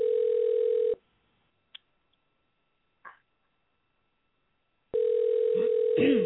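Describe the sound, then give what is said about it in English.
Telephone dial tone heard while a call is being dialed: a steady electronic tone, then near silence broken by two faint clicks, before the same tone resumes for the last second or so. “Let me pull up our phone lines here, and I'm dialing. Oh, did I dial that right? Okay, here we go. We're dialing.”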